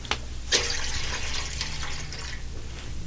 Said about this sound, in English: He's washing my feet like a common servant.